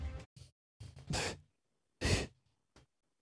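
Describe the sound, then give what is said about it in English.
A woman gasps and sucks in air as a cloth is pulled off her face: several short breathy bursts separated by silence, two of them louder and sharper. “once you manage to get the cloth off her face, she sucks in a breath”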